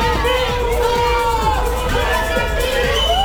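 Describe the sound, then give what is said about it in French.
A crowd of villagers cheers and acclaims their lord in a loud, continuous chorus of overlapping shouts and raised voices, with a few whoops rising above the din. “Qu'est-ce qui se passe? Les villageois, monseigneur, ils vous acclament.”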